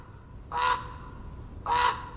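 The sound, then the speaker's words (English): A raven calls twice on the moist Oregon coast among redwoods and hemlocks. Two hoarse, croaking caws are evenly spaced and fairly loud over a steady low background rumble. “A raven calls out. These huge black birds are perfectly suited for the diverse ecosystems of the Pacific Northwest.”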